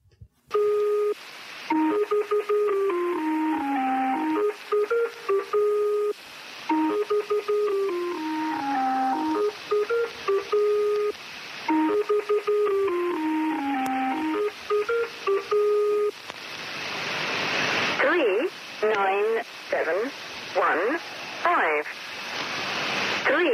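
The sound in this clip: A shortwave number station, the Lincolnshire Poacher, plays a repeating tonal melody over steady hiss, several passes in a row, then breaks into harsh bursts of noise and static.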